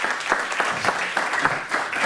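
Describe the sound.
An audience claps to welcome a keynote speaker at a talk on workplace diversity and inclusion: a steady wash of many hands applauding, even in volume from start to finish.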